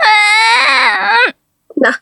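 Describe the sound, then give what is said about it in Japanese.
A lost child cries with a loud, sustained, high-pitched wail for over a second, breaks off into silence, then lets out a short sobbing catch. “泣かないで。”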